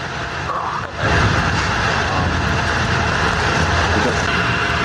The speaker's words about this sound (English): This is the noise you're hearing from the data center in Michigan.